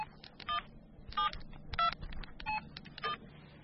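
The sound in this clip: Keypad tones from a mobile phone being dialed to make a call: a series of short, bright beeps spaced at a fairly even rhythm, alone and moderately faint.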